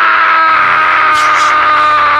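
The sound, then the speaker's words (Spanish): A man lets out a shout of indignation, a single long, loud, strained yell that he holds at a steady high pitch throughout. “le permitimos pegar un grito para manifestar su indignación y quitarse todo el veneno”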